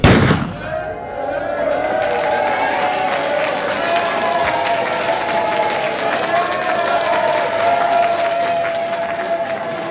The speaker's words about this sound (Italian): poi c'è una persona che spara e si parte tutti in questo modo.